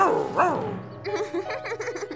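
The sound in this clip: A dog barks with a deep, drawn-out, tonal vocal burst near the start, and then a person talks over a background murmur.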